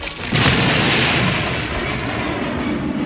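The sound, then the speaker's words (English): Explosive charges blow up the shield bunker in Return of the Jedi, a loud, sustained, rumbling blast that roars continuously with a crackling, debris-like texture and no pause. “They quickly set their explosive charges and ran outside for cover.”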